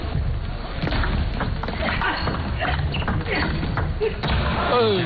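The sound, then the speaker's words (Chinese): Table tennis rally in the fourth game of a professional match, opening with a serve: a series of sharp, light ball hits and bounces at an irregular rhythm, partly masked by steady crowd noise and voices. “我们接下来看双方第四局的较量。张本智和先发球”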